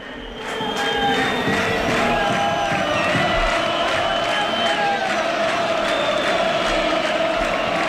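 Football stadium crowd at half-time of a playoff match, just after the home side scored late in the first half: a loud, continuous roar of cheering and chanting that holds steady throughout with no pause.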